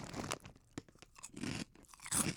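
Korean truffle crackers crunched loudly, with many crisp bites and chewing bursts following in quick, uneven succession.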